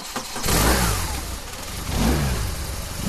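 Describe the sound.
Military police motorcycles start up and rev: the engines roar in a broad, gritty blare that climbs in pitch twice, with a brief easing between the two surges and no voices.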